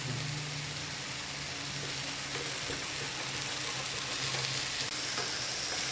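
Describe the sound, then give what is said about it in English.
Large seekh kebabs frying two at a time in a pan give a steady, dense sizzle that crackles evenly throughout, over a faint low hum. “Now I'm just going to fry two at a time because these guys are massive. This should take about 2 to 3 minutes tops on each side.”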